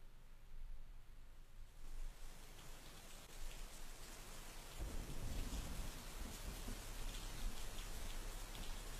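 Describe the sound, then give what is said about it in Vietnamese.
Steady winter rain at night hisses as an even, dense patter, turning noticeably heavier and louder about halfway through. “Đêm hôm đó, lại là thêm một cơn mưa giữa mùa đông rả rích.”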